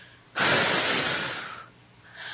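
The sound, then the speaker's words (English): A person breathes in deeply during a breathing exercise: a single long, airy inhale of over a second, followed near the end by a quieter breath. “And once again, number two, breath in. Hold it and release.”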